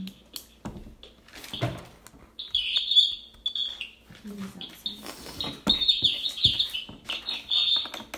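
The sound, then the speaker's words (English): A bird chirping outdoors, with short high-pitched bursts of tweets that come and go, then grow busier and more continuous in the second half, with a few scattered knocks between them. “That's a birdie.”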